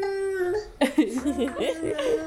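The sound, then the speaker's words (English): A baby babbles in a home, giving high, voiced coos and squeals whose pitch rises and falls in short bursts, with a steady tone at the start and several quick wavering sounds after. “He's like babbling.”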